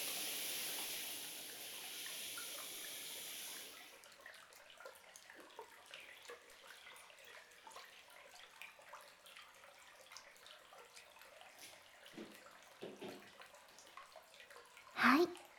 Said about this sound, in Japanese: 順番にシャワーのお湯をかけておきますね。背中もきれいに流して、